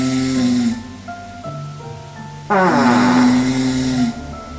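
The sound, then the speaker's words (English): Snoring at Rimu Park Lodge, heard as the lodge's mystery sound: two loud, drawn-out rasping snores with a buzzing, tonal quality, separated by a quieter stretch of steady tonal noise. “That sounds like some snoring, but what's that other noise?”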